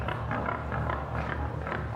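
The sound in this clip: Pig grunts sound as a string of short, rough bursts repeating over a steady, continuous low hum.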